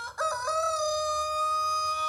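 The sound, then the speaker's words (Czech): A rooster crows once in a loud, strongly harmonic call. It opens with a few quick, choppy notes, then holds a long, steady tone for nearly two seconds. “Zakokrál kohout. A jak zvedl hlavu na to kokrhání”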